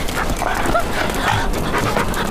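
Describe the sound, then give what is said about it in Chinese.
A dog pants loudly and steadily, a continuous breathy rhythm that fills the whole stretch without pause. “哪来的狗啊？”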